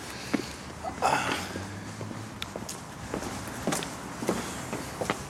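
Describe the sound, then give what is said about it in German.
Footsteps walking into the Zeiss Großplanetarium, an East German-era building: a few irregular, fairly soft steps and clicks over a steady low background hum. “So, ich gehe mal hier rein.”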